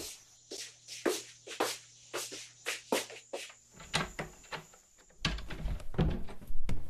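Footsteps of two people heading downstairs together: many scuffing, thudding steps in an uneven rhythm. A stretch of louder rustling shuffles and knocks follows.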